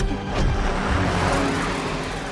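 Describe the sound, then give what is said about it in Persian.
A car reversing, its engine giving a steady, broad rumble mixed with dense road and mechanical noise that swells slightly and then holds level for the whole stretch. “باید دنده عقب بگیرم. دارم همین کارو میکنم.”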